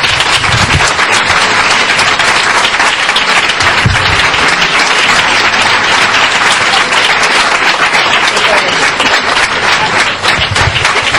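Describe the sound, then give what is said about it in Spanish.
Loud audience applause thunders for a man being honoured, with dense, sustained clapping that holds at an even level for the whole clip. “Y un aplauso muy fuerte para él, por favor.”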